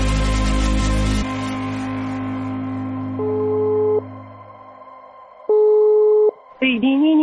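Telephone tones while dialing a call: a dense opening burst, then two long, steady electronic beeps separated by a pause, followed by a short warbling tone at the end.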